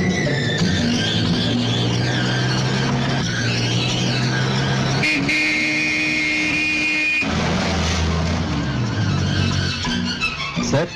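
A car drives fast and overtakes, its engine roaring loudly and steadily, with a sustained horn honk partway through and a busy soundtrack underneath.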